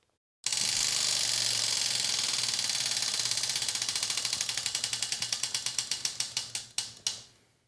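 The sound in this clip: Ratchet clicks from a spinning prize wheel rattle off rapidly and evenly, then gradually slow and spread apart until the wheel stops after about seven seconds, with no talk.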